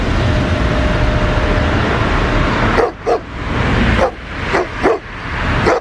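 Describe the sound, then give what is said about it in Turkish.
Stray dogs barking in a parking lot as they chase a man leaving for work, a few sharp barks cutting through a steady rushing background in the second half. “İşe gitmek için evden çıktı. Köpekler tarafından böyle kovalandı.”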